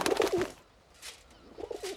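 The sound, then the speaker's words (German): A carrier pigeon coos in two short, soft bursts separated by a brief pause, heard alone without voices. “Sieh mal, Urobes Taube.”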